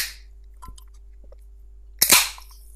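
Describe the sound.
A bottle of woodruff-flavoured soft drink is opened with a sharp pop and a brief hiss of escaping gas, preceded by a few faint clicks.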